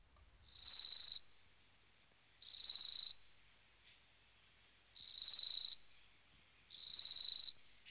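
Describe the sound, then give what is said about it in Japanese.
Bell crickets chirp in four evenly spaced bursts, each a high-pitched, bright trill lasting under a second. Quiet gaps separate the bursts, and no other sound is heard. “ああ、スズムシが鳴いてら風流だな。”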